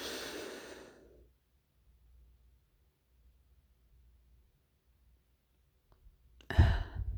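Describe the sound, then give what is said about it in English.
A slow breath exhaled during a relaxation exercise fades away into a long quiet pause. A sharper, louder breath follows near the end. “Let it go. Take another deep breath in.”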